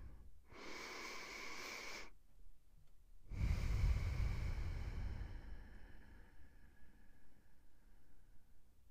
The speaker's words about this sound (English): So let's take a breath here together.